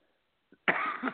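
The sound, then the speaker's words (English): A single short, rough cough bursts out after a moment of near silence, preceded by a faint small throat sound. “so I'm sorry you're coughing”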